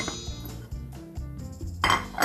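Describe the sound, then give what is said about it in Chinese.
Ingredients being added into a cooking pot of heated water make clinks and clatter. A few knocks and metallic rattles end in a brighter burst of clattering. “好，我们就把食材都加进来。”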